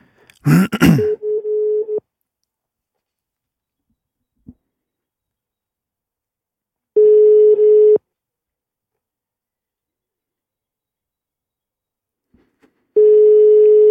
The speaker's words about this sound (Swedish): Nu testar vi att ringa.